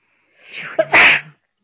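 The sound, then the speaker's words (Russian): A single human sneeze: a breathy intake builds into one sharp, loud, explosive burst that ends quickly, heard alone within about a second. “Ой, сейчас чихну.”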